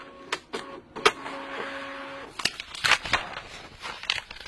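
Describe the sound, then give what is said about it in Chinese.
A printer prints out a copy in an office. It gives a mechanical whir with a steady hum and a few sharp clicks, followed by a looser stretch of rattling feed noise. “这样吧，我拉一份打印稿，你们自己看看好吗？”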